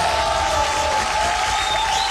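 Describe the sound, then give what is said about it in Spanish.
Applause and cheering on a radio show, a continuous, dense wash of clapping and crowd noise at an even level, with a faint sustained tone throughout. “Así que este aplauso es para ustedes.”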